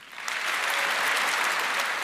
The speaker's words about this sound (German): dann bitte ich um einen großen Applaus an dieses Trio.